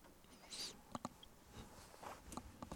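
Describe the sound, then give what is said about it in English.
Faint crinkly clicks and small rustles of frozen, already-deveined shrimp being peeled by hand while cooking, with a few sharp ticks scattered among soft handling noise. “All right, I'm just peeling off the shrimp are already deveined.”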